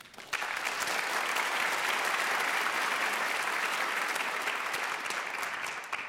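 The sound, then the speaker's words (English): Audience applause welcoming a pianist who won a prize at the Van Cliburn competition. The clapping starts abruptly and holds as an even, continuous patter for about six seconds before easing slightly at the end. “Please welcome Sean Chen.”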